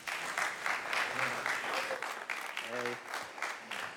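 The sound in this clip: A church audience applauds a departing couple who are about to give a final blessing. The clapping is steady and lively, and a brief voice rises through it midway.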